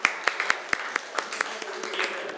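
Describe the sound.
Students clapping for themselves during a Thai classroom lesson. The claps are quiet, brisk and evenly spaced, with a few sharper hits at the start and softer, scattered claps after.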